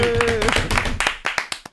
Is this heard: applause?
yes